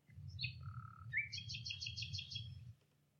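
Bird calls: a few clear, high whistled notes give way to a quick series of repeated bright chirps, all over a steady low rumble before fading out.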